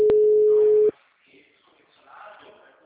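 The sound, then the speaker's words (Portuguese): Telephone tone of an outgoing call ringing out: a single steady mid-pitched tone lasting about a second, then near silence with faint background noise. “Não, tô ligando agora”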